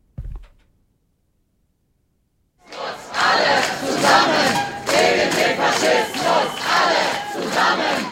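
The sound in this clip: Loud crowd shouting and chanting from a counter-demonstration against an AfD campaign stand in front of the Ulrichskirche. A brief thump and near silence come first, then a dense, sustained roar of many voices that swells and dips in a pulsing rhythm.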